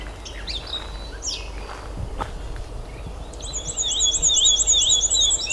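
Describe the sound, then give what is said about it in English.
A thin, high-pitched warble from a small climbing songbird holding territory in a swampy lakeside area in June: rapid, repeated bright notes fill the second half over steady background hiss, after a few scattered faint chirps. “Very thin warble. Thin and high pitched.”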